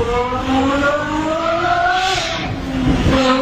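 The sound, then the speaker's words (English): Engine revving loudly from a 1,200-horsepower car with open headers, its strained harmonic whine climbing steadily, dropping briefly, then rising again in continuous sweeps with no talk over it. “So I mean, he's revving that engine.”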